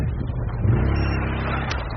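A quad bike's engine drones loud and steady at a mid pitch with slight revving swells as it arrives to evacuate a wounded man in a combat zone, with no voices.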